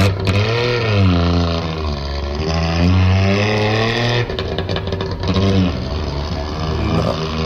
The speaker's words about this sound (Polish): Nie sposób pomylić tego dźwięku z żadnym innym autem. Zresztą popularne syrenki trafiły tylko pod strzechy